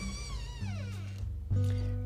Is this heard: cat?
yes

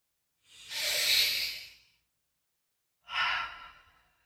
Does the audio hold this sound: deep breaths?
yes

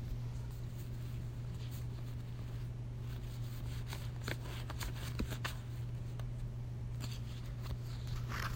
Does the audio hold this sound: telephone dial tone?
no

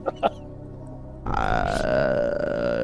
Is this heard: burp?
yes

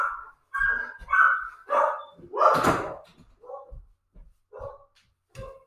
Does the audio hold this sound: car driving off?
no

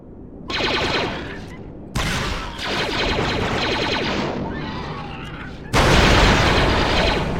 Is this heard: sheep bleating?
no

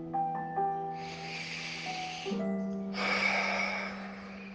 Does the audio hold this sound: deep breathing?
yes

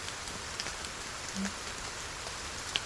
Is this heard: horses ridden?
no

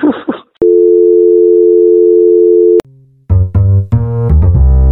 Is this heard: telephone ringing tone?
yes

